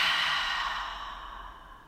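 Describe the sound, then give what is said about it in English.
A deep breath, heard as one long, breathy rush of air that starts strong and gradually fades over about two seconds, with no talking. “So let's breathe in. And out.”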